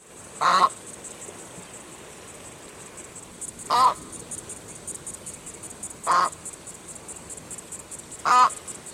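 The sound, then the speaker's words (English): An Australian white ibis gives four harsh, nasal honking calls, each brief and spaced a few seconds apart, alone over faint background hiss. “The Australian white ibis is the ibis you're probably most familiar with. It sounds a bit like this.”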